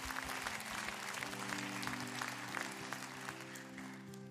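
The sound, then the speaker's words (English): A church audience applauds to welcome new believers at a Christmas service. The even clapping runs throughout, over steady sustained instrumental tones beneath it, and eases slightly toward the end. “So, can we just put our hands together and welcome some people into God's family right now?”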